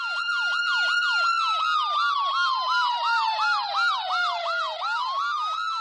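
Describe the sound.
An ambulance siren blares loudly and steadily, rapid repeating yelps layered over a slower wailing tone that sweeps down, with no voices heard.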